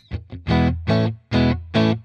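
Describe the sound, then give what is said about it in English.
Distorted electric guitar chords from a 2015 special edition Art Series Blue Dragon Fender Stratocaster, played with reverb off: two short muted stabs, then four loud ringing chords in an even rhythm, with slight echo from a bouncy room. “So that's the 2015 special edition David Lizzo Art Series Blue Dragon Stratocaster.”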